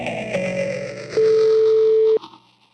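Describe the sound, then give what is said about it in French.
A telephone ringing tone on an outgoing call: one steady, even mid-pitched tone lasting about a second, starting after faint line noise and then cutting off. “lui passe un petit coup de fil pour prendre de ses nouvelles.”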